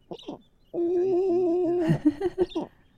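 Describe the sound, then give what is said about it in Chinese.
A young bird chick calls: a couple of short notes, then a sustained, slightly wavering tonal note, and finally a few quick broken notes. “幼雏的叫声还蛮可爱的哦”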